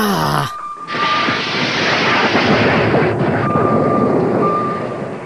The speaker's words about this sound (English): Prepare to launch torpedoes on my mark.